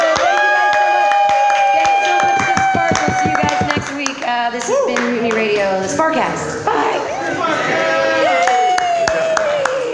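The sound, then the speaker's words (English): Audience at a comedy show cheering and clapping: several voices shout together in loud, overlapping bursts over a run of quick, regular claps. “So everybody say, yay us. Yay, yay, yay.”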